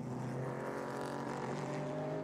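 GT4 race car engines on a circuit during a race, a loud, steady, high-revving drone with dense harmonics that holds evenly for the whole stretch, with no voices.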